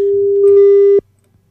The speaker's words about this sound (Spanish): ¿Podemos generar una llamada? Sí, podemos generar una llamada.